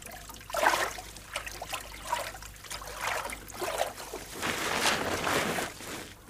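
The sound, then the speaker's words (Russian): Faint river water trickles and sloshes at a grassy bank as floating logs are pulled ashore with a hooked stick. Soft, irregular splashes and dribbles come in uneven bursts, with a fuller wash toward the end. “спускается по покрытому травой склону, идет к реке. Стоит на берегу и палкой подтаскивает к берегу проплывающие мимо бревна.”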